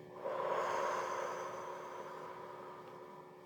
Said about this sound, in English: take a deep breath in through your nose and let it out through your mouth